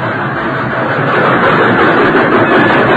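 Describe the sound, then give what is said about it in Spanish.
Steady, loud rumble of a train running on the rails: a dense, continuous roar with no clear breaks from start to finish. “Va pitando el tren. Eso quiere decir que vamos a llegar a una estación.”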